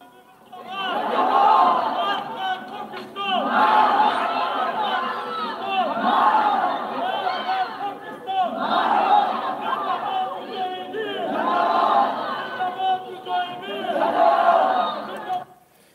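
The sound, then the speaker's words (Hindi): A crowd in Kabul chants anti-Pakistan slogans, with many voices shouting the same phrases together. The chants come in regular rhythmic waves, each rising and falling, and the pattern repeats steadily. “Kabul में भी आज death to Pakistan के नारे लगे”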